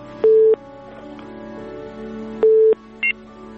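Telephone tones after a phone call is cut off: two steady mid-pitched beeps a couple of seconds apart, then a brief, higher third beep, over a low constant hum.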